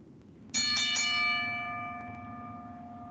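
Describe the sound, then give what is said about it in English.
A bell is struck with a quick cluster of bright metallic hits, then rings on with several clear sustained overtones that slowly fade over a low steady hum. “ring the bell”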